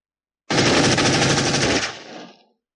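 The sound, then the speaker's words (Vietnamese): A machine gun fires one loud, continuous rapid burst lasting about two seconds, the shots blurring into a harsh roar before it tails off quickly. “Khẩu súng máy trong tay đồng tử đã điên cuồng nổ vang, vỏ đạn điên cuồng bắn lên”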